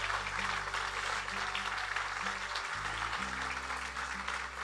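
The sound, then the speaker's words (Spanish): A church audience applauds for the Lord with steady, dense clapping throughout. Low, sustained held tones play underneath the applause. “Sí, démosle un aplauso al Señor. Yo creo que es lo menos que se merece el Señor. Un aplauso.”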